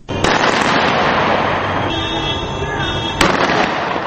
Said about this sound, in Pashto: این صدای فیر تفنگ در ترابلس پایتخت لیبیا می باشد.